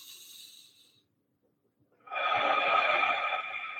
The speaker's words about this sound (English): I'm going to take a deep breath, three deep breaths.